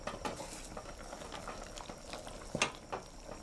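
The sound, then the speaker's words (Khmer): Pot of meat kept at a gentle boil while being stirred thoroughly: quiet, steady bubbling patter with scattered soft scrapes and a brighter clink near the end. “យើងអាចដាក់តាមមួយនាទីបានហើយកុំឲ្យវាលលួយខ្លាំងយើងកូរវាឲ្យសព្វ”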